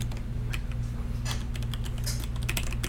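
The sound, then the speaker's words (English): Typing on a computer keyboard as quiz answers are entered: a brisk, uneven run of many light plastic key clicks over a steady low electrical hum, with no talking. “give our boy a second to type the answers back”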